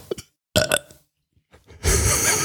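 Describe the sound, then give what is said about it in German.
A loud, drawn-out burp performed on command rises at the end after a few short vocal sounds, a rough low belch that swells and holds to the close. “Auf Kommando kann ich rülpsen”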